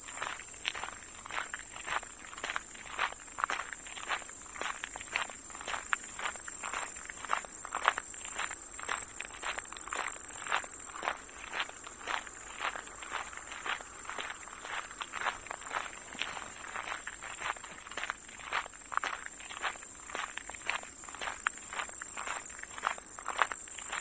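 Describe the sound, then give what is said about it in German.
Footsteps walking along the shore of a pond: many steady, evenly paced steps continue without a break, each a short soft crunch over a constant high hiss. “Wir laufen weiter am Ufer des Annateichs entlang.”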